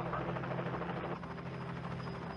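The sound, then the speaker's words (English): A helicopter in a video game gives a steady, faint whirring rotor drone that holds evenly from start to end, with no voices over it. “You can tell it's a Canadian helicopter.”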